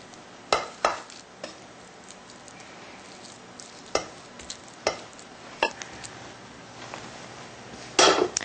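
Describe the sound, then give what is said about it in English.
Millet grains scattered over vegetables in a pan give a faint steady hiss with several sharp, spaced clicks and taps and a denser rattle near the end. “And now we're going to take the remaining third of our millet and put it on top. So you kind of want to scatter this around as you add it to the pan.”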